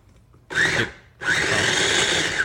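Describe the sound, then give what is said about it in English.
A food processor chops scallions and garlic in two bursts of whirring: a short pulse, a brief pause, then a longer sustained grinding whir. “Back in processor. And process the shit out of it.”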